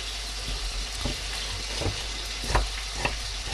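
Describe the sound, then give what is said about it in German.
Goulash meat searing in a large flat pot gives a steady, fairly quiet sizzle and crackle, broken by a few soft scrapes of stirring. “Naja, Brät, ne? wenn ihr jetzt auch einen Topf nehmt, der groß genug ist. Also eine, einen flachen, aber großen Topf.”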